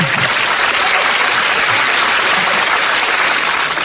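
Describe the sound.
Audience applause, a dense, steady wash of clapping that holds at an even, loud level for the whole stretch, with no single voice standing out.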